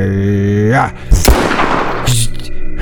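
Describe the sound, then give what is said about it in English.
A loud video game gunshot erupts after a voice, a harsh noisy crack with a roaring tail of about a second, then talk resumes. “Are you shooting him or am I? You go ahead and shoot him.”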